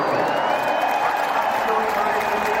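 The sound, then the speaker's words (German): Roar of a stadium crowd of over 38,000 fans cheering on their team, a dense, loud and unbroken wash of noise that holds steady throughout. “Und so klang das damals im Fanbus. Block, als 38.365 Menschen euch angefeuert haben. Audiobeweis.”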